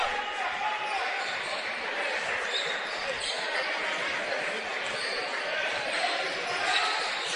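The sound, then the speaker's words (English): A basketball is dribbled during a game's second quarter, its repeated bounces mixed into steady crowd noise while a commentator talks over the action. “Harris just dribbling it on the S.”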